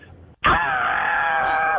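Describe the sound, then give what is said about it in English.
A caller on the phone imitating a deathcore metal vocal scream, one long harsh, loud, sustained scream bursting in after a brief silence and holding to the end. “do you have an Alex the Terrible scream that you could do, or at least your best attempt? Let's see.”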